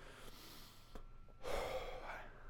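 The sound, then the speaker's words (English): Deep breathing during a relaxation exercise, with a soft steady breath followed by a sudden, loud, gasp-like intake that stays airy and full to the end. “And as always, let us take a few deep breaths together.”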